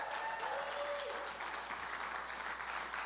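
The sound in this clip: Applause from a church audience welcoming members who join online: steady, dense clapping that blends into an even wash of sound, fairly soft and unbroken from start to end.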